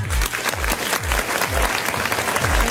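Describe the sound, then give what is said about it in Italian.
Applause from a crowd: dense, lively clapping that carries on throughout, over a regular low thump that pulses underneath. “facciamo un applauso”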